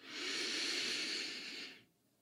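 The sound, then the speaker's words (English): A slow, deep breath taken during a guided breathing exercise: one long, soft, airy hiss that holds steady for over a second before fading out. “So let's begin by taking a few nice deep breaths.”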